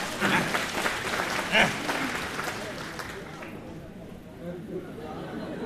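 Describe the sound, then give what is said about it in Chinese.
Audience applause at a stage comedy show: a crowd claps steadily for about three seconds, then the clapping fades, with voices talking over it and continuing afterward. “各位鼓鼓掌，让咱来了易中天怎么样？”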